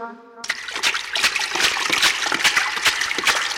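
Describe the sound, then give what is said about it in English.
Water splashes continuously and irregularly for a few seconds, a loud wet churning of splatters and gushes, preceded by a brief tonal sound at the start. “what's that sound I hear? That's water splashing.”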